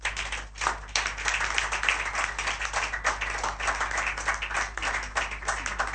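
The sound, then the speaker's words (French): An audience claps as a gift is presented to a professor and his wife, with six seconds of steady, dense applause at an even level from start to finish. “nous allons remettre un présent au professeur Bleu Basile Hamler et madame. Ça s'acclame.”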